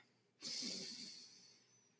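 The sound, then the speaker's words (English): A deep breath taken before a conversation: a faint, airy rush starts abruptly and then slowly fades over more than a second, with no talk over it. “I just have to take a deep breath”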